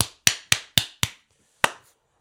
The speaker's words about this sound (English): I'm going to like just clap here just so that we have a distinct ending of that story.